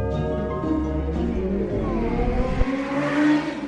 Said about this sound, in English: Y'all hear them driving crazy?